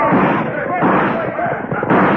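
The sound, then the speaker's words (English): Guns blaze in a western-style robbery of a gold shipment, with dense, rapid gunfire bursts piling up loudly throughout. Shouting voices are mixed in with the shots. “And then they swooped down, guns blazing.”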